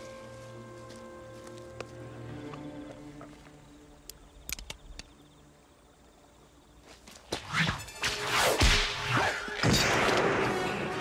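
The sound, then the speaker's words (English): A whip cracks in a film scene: after a quiet stretch of sustained tones and a few faint ticks, sharp swishes and loud snapping cracks burst out. “he has a whip. Like, who has a whip? And then he uses it to knock it out of the guy.”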